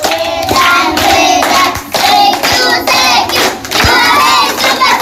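Children at a daycare centre in Dar es Salaam applaud their classmates with loud bursts of hand clapping mixed with excited shouts and cheers, in repeated waves.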